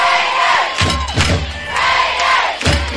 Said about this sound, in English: You hear the Raider crowd on their feet chanting Raiders.